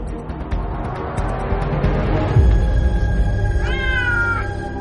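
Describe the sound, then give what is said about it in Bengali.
A fat cat in a courtyard gives a single drawn-out meow near the end, heard over a continuous noisy rumble. “উঠোনের ঠিক মাঝখানে কোথা থেকে একটা মোটা সোটা বেড়াল এসে পড়েছে।”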